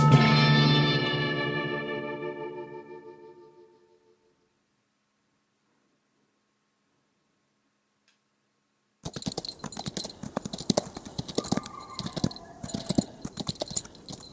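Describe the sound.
Horses' hooves clip-clop in a rapid, busy run of sharp clicks over the final five seconds. Before them come a long, decaying tonal swell and a silent gap.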